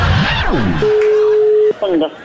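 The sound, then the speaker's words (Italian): A telephone tone sounds after the other caller hangs up, one flat, steady beep held for about a second between short bursts of talk. “Ma perché la gente butta giù il telefono?”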